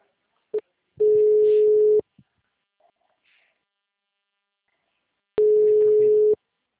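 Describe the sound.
A telephone line tone follows a dropped call. A short click is followed by two steady beeps of about a second each at the same pitch, separated by a long near-silent gap with a few faint rustles.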